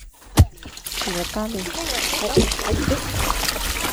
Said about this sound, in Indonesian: Serat-serat yang mengandung tepung sagu ini disiram air.